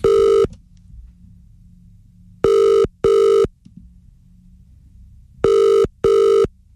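Telephone ringback tone while calling a fish and chip shop: one ring cut short, then two double rings with long gaps between them. Each ring is a clear, steady mid-pitched buzzing tone over a faint low hum.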